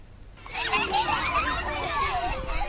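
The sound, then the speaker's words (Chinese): Children's voices during an outdoor exploration class at a kindergarten in Harbin, where they play with water and building blocks: many overlapping high-pitched chatters and calls, steady and lively throughout. “在哈尔滨市南岗第二幼儿园，一堂户外探索课正在进行，孩子们吸水戏耍，搭建积木，自由探索整片空间。”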